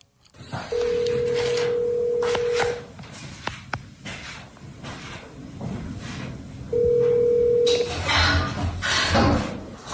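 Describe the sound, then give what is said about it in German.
Outgoing phone call ringing as a radio host calls his drummer friend: two long, steady low tones separated by a pause, with fainter rhythmic sounds underneath. “Mein bester Freund ist der Drummer und ich wollte ihn mal kurz anrufen, mal gucken, ob er Zeit hat.”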